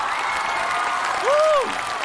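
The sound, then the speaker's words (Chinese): Applause from a studio audience welcoming two guests onto a variety show stage: a dense, steady clatter of many hands throughout, with a short tonal whoop that rises and falls near the end. “接下来让我们用掌声欢迎寻风团成员蔡国庆和寻风好友韩雪，欢迎两位。”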